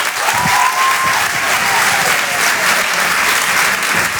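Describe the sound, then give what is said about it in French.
Audience applause greeting a performer at a live comedy show: steady, loud, dense clapping from a large crowd throughout, with a brief whistle near the start. “Faites du bruit, s'il vous plaît, pour Jérémy Charbonnel.”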